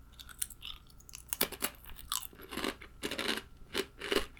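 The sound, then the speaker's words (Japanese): Crisp crunching and chewing as someone eats crunchy snacks, with many short, irregular bites and munches that stay fairly faint, with no talking. “おつまみ食べさせてください。いただきます。”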